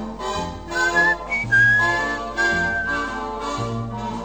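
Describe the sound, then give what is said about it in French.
Someone whistles a tune, a clear, high, fairly steady melody carried over rhythmic instrumental music with a pulsing low bass, sustaining long notes between short phrases. “Quand sans y penser, vous sifflotez,”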